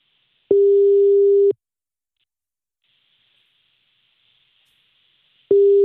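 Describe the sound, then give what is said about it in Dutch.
A phone ringback tone plays while calling someone's father: one steady, single-pitched tone lasting about a second, then a long silence over faint hiss, then the same tone begins again at the end. “Ja, we gaan nu bellen. Oh, we gaan nu je vader bellen.”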